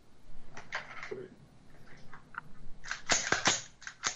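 A short SWAT work rifle is handled and set down, with scattered light knocks and rattles followed by a cluster of sharp metallic clicks and clacks.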